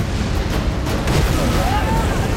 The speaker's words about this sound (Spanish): Dos flechas ardiendo caen cerca de su barco y el agua se inflama.